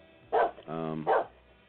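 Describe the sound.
Two sharp dog barks ring out, separated by a short tonal sound in between; both bursts are loud and brief against a quiet background.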